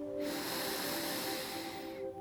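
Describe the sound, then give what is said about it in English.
Deep breath drawn in through the nose during a guided breathing exercise, heard alone as a long, steady, airy hiss of about two seconds. “let's take 7 deep breaths. So you're going to breathe in through your nose and out through your mouth. So first one, in through your nose,”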